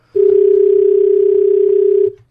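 A telephone dial tone sounds after a button is pushed: a single loud, steady hum that holds unchanged for about two seconds and then stops, with nothing else heard.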